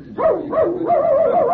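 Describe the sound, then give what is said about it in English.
A dog chasing a calf barks and yelps in a loud, unbroken run of high, wavering yips that rise and fall in pitch, with no voices over it. “look at that dog go. Rags, come back here. Hey, sure went after that calf.”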